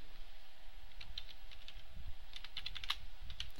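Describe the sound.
Code being typed on a computer keyboard: rapid, irregular key clicks in a steady stream, faint and unbroken, with no voices.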